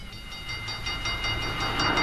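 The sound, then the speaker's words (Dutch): A West German ICE high-speed train of the Deutsche Bundesbahn rumbles along in a steady, dense roar with a quick rhythmic clatter of wheels, growing slightly louder toward the end. “in Utrecht, ook nog de West-Duitse tegenhanger van de Franse TGV verschenen. De supersnelle ICE van de Deutsche Bundesbahn als een soort klapstuk van de show Treinen door de Tijd.”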